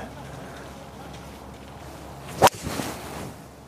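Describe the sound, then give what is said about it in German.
A golf ball is struck with a 3-wood on a course: one sharp, loud crack rises out of quiet outdoor background noise, then a brief, softer swishing tail follows. “Ich versuche mein Holz 3. Die Fahne steht kurz hinter einem Bunker, der ziemlich tief ist. Den Holz 3 ganz knapp hinter die Fahne zu schlagen.”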